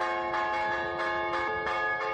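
Church bells peal from the tower of the church in Leiro, Rianxo, rung by a young bell-ringer. Loud, ringing tones overlap continuously, with many strikes repeating in a quick, steady rhythm.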